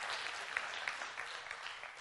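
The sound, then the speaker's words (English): An audience claps, a soft, even wash of many hands with a few slightly sharper claps standing out now and then. “Yeah, I think that's a good thing to clap on.”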